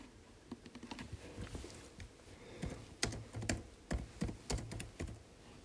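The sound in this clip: Keys clatter as someone types a message on a computer keyboard: many quick, irregular clicks in uneven bursts, with sharper, louder strokes toward the end and no voices.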